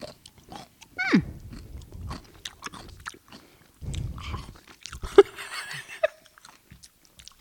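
Someone bites into a pickle with a crisp crunch, then keeps chewing, giving faint, irregular wet crunches and smacks.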